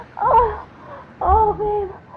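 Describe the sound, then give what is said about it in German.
A woman crying on a balcony, heard as two long, wavering, high-pitched wails separated by a short pause. Each sob is loud and strained, and a third cry begins at the very end. “Oh, da weint eine Frau auf dem Balkon.”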